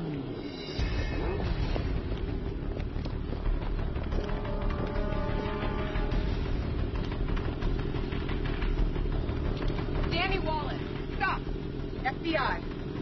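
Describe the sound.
A motorcycle engine idles during a police stop, a steady low rumble running throughout while people talk and shout over it.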